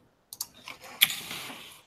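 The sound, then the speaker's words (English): Keystrokes on a computer keyboard as a command is typed into a command line: a few light clicks, then one sharper, louder click followed by a brief softer patter, heard alone without talk. “it's off screen, but I'm just typing ng-serve in the command line”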